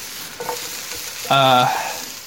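Broccoli and other vegetables sizzle in a fry pan as they shrink and brown in their own juices. The frying is a steady, bright hiss that swells briefly louder partway through, with a bit of stirring.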